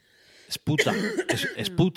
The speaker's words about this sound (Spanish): Es que tengo una tos de perros